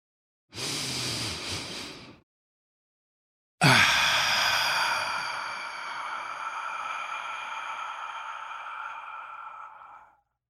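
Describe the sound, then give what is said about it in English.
A deep breath: one audible inhale, a short pause, then a long, steady exhale that slowly fades, with no talking. “let's take a deep breath”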